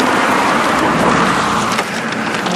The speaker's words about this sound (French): Il y a du passage. Les voitures nous frôlent et filent à toute vitesse.